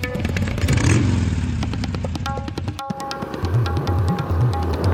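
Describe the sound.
Motorcycle riding over a bumpy road in Goa, its engine droning steadily and loud while rattling clatter and scraping knocks break in irregularly.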